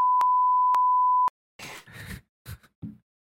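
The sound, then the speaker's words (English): A steady, high censor beep, used to blank out a spoken name, holds for just over a second with a few clicks inside it. It stops abruptly, and brief bursts of speech follow. “I'm gonna have to beep that out when I edit the episode”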